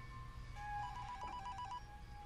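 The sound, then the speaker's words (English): A phone rings with a warbling electronic ringtone, a short burst of rapidly pulsing high tones. It sounds fairly faint over a low background hum, with no talking. “The moment is broken by the ringing of the phone”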